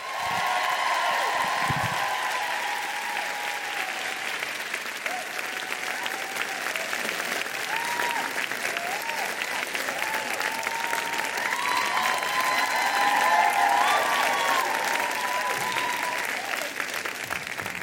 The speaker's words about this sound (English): Put your hands together for Tatiana and Brotima.